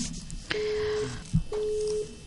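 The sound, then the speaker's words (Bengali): Telephone line disconnecting on a radio phone-in: two steady mid-pitched beeps, each about half a second long, separated by a short gap that holds a brief dull thump. “সংযোগটি বিচ্ছিন্ন হয়ে গেল, তাই তো? সমস্যা নেই, আমরা আবারও অপেক্ষা করছি ফোনের জন্য।”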